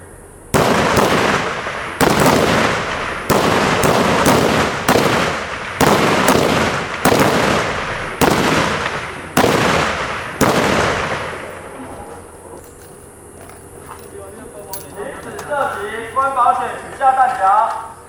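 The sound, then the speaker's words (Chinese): Rifle shots ring out at a reservist rifle-shooting training camp at a military base in Hualien: many loud, sharp cracks in an uneven rhythm, then voices once the firing stops. “国防部也特别表示，举办此项战斗营的目的是使后备军人在两次的教导期间能保持射击技能。 开保险，开射击。”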